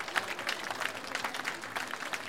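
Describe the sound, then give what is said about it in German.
Audience applause for a live team on site at the Türkele festival in Klausen: many fairly quiet hands clapping in a dense, crackling patter. “Ein Applaus für das Reihe Südtirol Live-Team vor Ort.”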